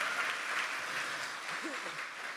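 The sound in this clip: Applause from an audience clapping in praise during a Christian worship service: dense, steady clapping that holds at an even level throughout, with a faint voice briefly mixed in.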